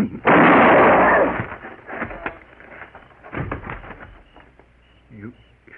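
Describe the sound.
A gunshot goes off during a tense Western standoff between gunmen: one loud, sharp blast that rings out for about a second, after which men's voices talk.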